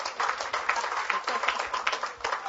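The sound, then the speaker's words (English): An audience claps to welcome a speaker. Many hands make a dense, even patter of applause that stays fairly faint and steady from start to finish. “Let's give Vicki a big hand. Thank her. Let's welcome her.”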